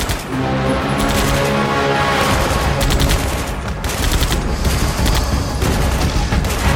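Soldiers fire weapons, including a gunner on the roof of a military transport, in loud, continuous automatic bursts that overlap into an unbroken rattling fusillade with no voices.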